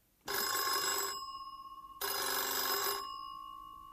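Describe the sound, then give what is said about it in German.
An incoming call sets a telephone bell ringing twice, each ring a loud, bright rattling burst of about a second that leaves a fading tone before the next. “neulich hat sie den Meister Eder, ihren Onkel Franz also, angerufen.”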